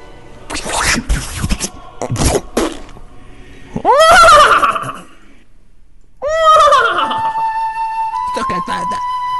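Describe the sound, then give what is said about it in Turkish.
A human voice imitates a horse neighing. A few breathy, scratchy bursts come first, then two loud, drawn-out, wavering whinny calls. “İşte şimdi ata dönme zamanı. Ve küçük mübaşire görünme zamanı. Bir at olayım”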